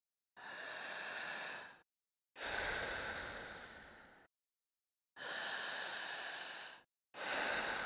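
Deep, slow breathing demonstrated by a hypnotherapist for a hypnosis exercise: four long, airy breaths, each lasting one to two seconds, separated by short silences. The breaths are soft and hushed, and no other sound is heard.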